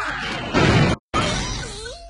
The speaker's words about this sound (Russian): Петарда в говно — это не наука.